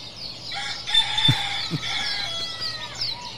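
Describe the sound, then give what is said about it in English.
A rooster crows in the early-morning hours with a fairly faint, drawn-out call that breaks into clucking-like catches. It is heard alone with no talk. “Apparently, 5:30 a.m. is every bird's alarm clock. So, like, 3:30 to 5:30 is just the rooster.”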